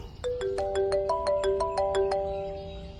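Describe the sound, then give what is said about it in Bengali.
A mobile phone ringtone plays a quick run of bright electronic notes in a short melodic pattern, then trails off into quiet. “রণজয়ের ফোনটা বেজে উঠল”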